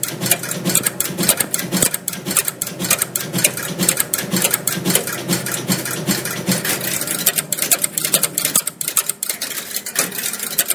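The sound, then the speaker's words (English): An old computer's printer clatters as it prints, a fast, rhythmic mechanical rattle of striking and clicking that continues steadily and loudly without pause. “And this is its printer in action.”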